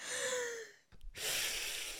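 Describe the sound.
A person draws a deep breath in during a guided breathing exercise. A long, steady, airy inhale begins after a softer breathy sound and a brief pause.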